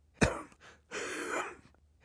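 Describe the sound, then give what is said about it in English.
A man coughs into a handkerchief: one sharp, loud cough burst, then a longer, rough, breathy rasp that fades out, with no talking. “had to cough into a handkerchief before he could begin”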